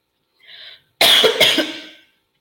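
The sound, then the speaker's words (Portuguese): Coughing after choking: a softer short sound is followed by two harsh, loud coughs in quick succession that trail off raggedly. “Desculpa, gente, engasguei aqui.”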